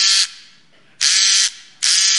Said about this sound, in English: I was drilling a bolt into a stud. Yes, I do know what that is, okay? And this is what I heard.